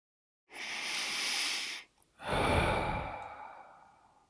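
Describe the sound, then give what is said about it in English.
Deep breathing: one long, airy inhale followed by a slow, gradually fading exhale, quiet and with nothing else heard. “Now take a deep breath, inhaling and exhaling.”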